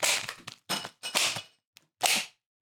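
A party cracker is pulled and pops, heard as a few sharp, noisy bursts with short silent gaps between them.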